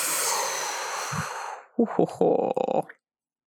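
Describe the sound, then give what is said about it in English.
A slow, deep breath during a guided breathing exercise: a long, airy rush of breath holds steady, then fades out over about a second and a half, followed by a short cluster of soft, breathy voiced sounds. “So deep breath in. And exhale.”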